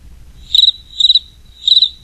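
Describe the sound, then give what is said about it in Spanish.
A cricket chirps by rubbing its wings, giving three short, high-pitched chirps at even intervals. Each chirp is a quick burst of rapid pulses, heard alone over a faint low background. “¡Bienvenido!, le cantó un grillo grande frotando las alas.”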